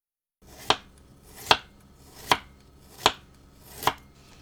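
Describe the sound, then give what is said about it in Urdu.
A knife slices peeled ginger lengthwise into thin strips, giving five crisp, evenly spaced chops against a cutting surface with quiet pauses between them. “اب ادرک کو چھیل کر لمبائی میں باریک ٹکڑوں میں کاٹ لیجیے۔”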